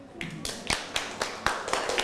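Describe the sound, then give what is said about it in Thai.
Classmates clap in unison for a friend in a classroom: steady, evenly spaced sharp hand claps at a brisk pace, several in a row, moderately loud. “นั่งลงครับปรบมือให้เพื่อนหน่อย”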